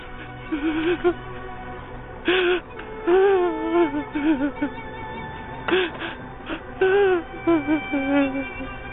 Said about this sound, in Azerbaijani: Ağlama, oğlum, ağlama. Ağlama.